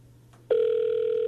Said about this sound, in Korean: 그래도 많이 지금 전화 연결을 해보고 있는 것 같아요.